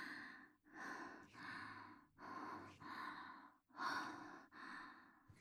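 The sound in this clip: Exhaled breaths in a slow, regular series, several soft airy puffs one after another, quiet and alone with no talk.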